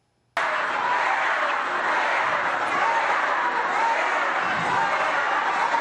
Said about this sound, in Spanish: se viralizó un video donde parecía que el público estaba abuchando a la presidenta mexicana Claudia Sheinbaum durante un acto en Colima